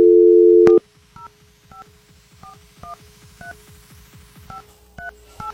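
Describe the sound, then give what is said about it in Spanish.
Telephone number being dialed on a keypad: a loud steady tone, then a series of short, clear beeps of varying pitch in an uneven rhythm over a soft, pulsing background. “ya estamos marcando.”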